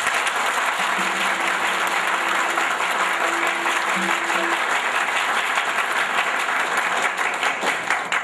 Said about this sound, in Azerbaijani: Bu bəyin özünə bir qəşət diqqətlə tamaşa eləyin. Bu bəyin özünə layiq bir əl salınma salın.